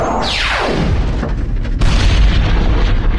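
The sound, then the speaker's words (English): A spaceship's lasers firing at an asteroid: one sharp zap sweeps steeply downward in pitch, then a loud, sustained rumbling boom takes over and fills the rest, with no voices. “I can see a big asteroid heading this way. Aim the lasers and fire at my count.”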